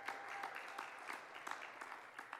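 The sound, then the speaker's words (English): A church audience at a Pentecostal service claps hands, a faint, brief patter of clapping with a few louder accents spread evenly across about two seconds. “That's worth a hand clap right there.”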